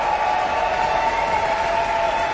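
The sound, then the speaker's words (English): Applause from a concert audience for the conductor and orchestra at the Aspen Music Festival, heard as a steady, dense wash of clapping that holds an even level throughout. “Our conductor has returned to wild applause and some screaming.”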